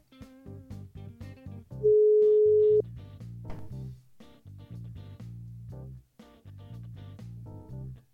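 Telephone tones while placing a call: one steady, loud beep lasting about a second, set among a string of short, rhythmic tonal notes.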